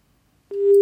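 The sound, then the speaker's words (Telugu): A telephone busy tone sounds after a call is cut off. A short silence gives way to a steady, loud, mid-pitched electronic tone that holds alone to the end. “Call cut అయిందండి.”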